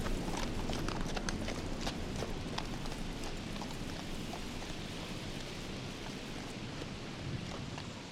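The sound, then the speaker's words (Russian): Clip-clop of horses led by handlers running past along a path: many quick hoof strikes in a steady patter over a constant rain-like hiss. “Мимо них пробегают лошади с поводырями.”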